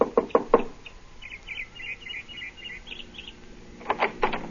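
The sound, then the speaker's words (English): Knocking on the door of a small house: a quick burst of three sharp raps, then a pause with faint high chirps, and then another few knocks in a tight cluster. “I got her home address and knocked at the door of her small house”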